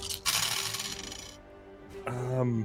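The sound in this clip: Many dice rolled at once during a Dungeons & Dragons tabletop session make a dense rattling clatter lasting about a second. A quieter stretch follows, then a voice rises at the end.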